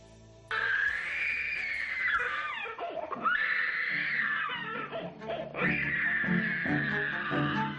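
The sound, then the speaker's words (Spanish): A small child screams in a tantrum, loud, high-pitched wailing in about three long bouts with brief breaks between, with no other talk over it. “Vaya berrinche, ¿eh? El chiquillo, madre mía, ¿eh?”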